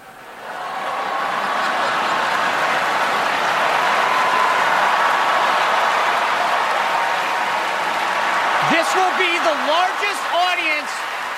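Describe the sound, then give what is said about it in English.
An Emmy awards audience cheers and applauds in a loud, sustained roar of clapping and crowd noise. A voice begins speaking over the crowd near the end. “All that laughter and cheering was because Spicer's cameo had him rolling onto the Emmy stage on a podium”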